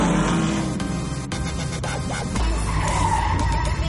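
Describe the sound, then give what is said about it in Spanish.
Tyres squeal loudly as cars in a police chase skid to a stop beside a large shipping container. Engine rumble runs underneath, a few sharp knocks cut through, and the screech persists to the end. “La policía continúa tras ellos doblan una esquina y detienen sus vehículos junto a un gran container.”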